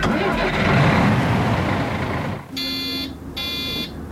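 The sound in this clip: A Düsseldorf public-transport bus engine starts with a loud, broad roar lasting about two and a half seconds, then gives way to two short, steady buzzing tones.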